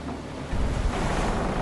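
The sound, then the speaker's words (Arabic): Wind and waves toss a ship at sea: a steady, roaring rush of surf and gusting wind that swells louder after a brief quieter start and stays dense throughout. “الرياح والأمواج تتحكمان بالسفينة كأنها ريشة طائر.”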